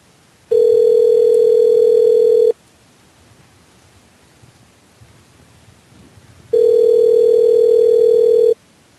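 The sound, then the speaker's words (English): Telephone ringing tone while calling someone back: two steady, loud, mid-pitched buzzes of about two seconds each, separated by a long gap of faint line hiss. “We're calling that mofo back.”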